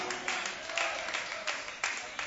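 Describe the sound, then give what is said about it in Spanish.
Sparse applause from a church audience: scattered claps over a steady, noisy wash, moderately loud and thin rather than full. “Poquitos aplausos. Pero es la realidad, hermanos.”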